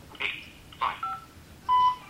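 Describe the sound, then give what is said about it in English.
A telephone keypad gives short electronic tones as the 5 key is pressed during a voicemail call to leave a callback number. A few brief beeps at differing pitches sound alone, with no voices. “To leave a callback number, press 5. Okay, 5.”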